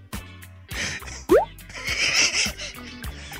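A bubbly, underwater-like bloop sound effect used for a baseball segment: a loud run of plopping, dripping tones with a quick rising sweep in the middle, followed by watery gurgles that fade.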